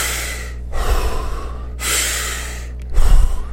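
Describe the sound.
Deep, paced breathing in and out into the belly, without holding at the top or bottom, as a few long airy breaths in steady alternation, the last one louder and heavier, with no talk.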